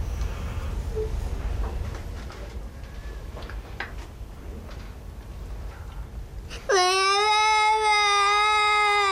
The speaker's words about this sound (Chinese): 别哭，别哭啊